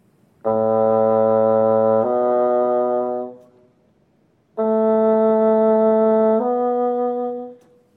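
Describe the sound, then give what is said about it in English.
Bassoon notes A and B played across two octaves: a sustained low A steps up to B, then after a pause the same pair sounds an octave higher. There are four long, steady solo tones in all. “On the bassoon, I can play the notes A and B in three different octaves. Linked together, the first two octaves sound like this.”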